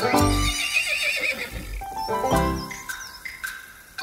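A young horse neighs in a loud, wavering whinny with a shrill, shaky pitch. A second, shorter neigh follows midway through, then softer trailing calls.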